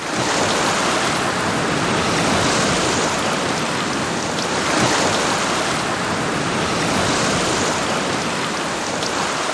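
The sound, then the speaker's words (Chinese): Ocean waves of a rising tide wash in as a steady, loud rush of surf, with gentle swells rising and falling throughout and no voices. “潮水开始上涨，似乎听到一声号令，短指和尚蟹集体消失。”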